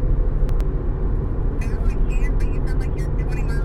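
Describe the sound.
Car driving, a steady low engine and road rumble droning throughout, with a voice talking over it in the second half.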